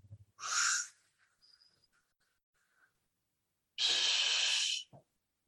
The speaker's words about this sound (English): Are you able to breathe to the belly? If you know, do you understand what I mean then? So if you breathe in, let me exaggerate.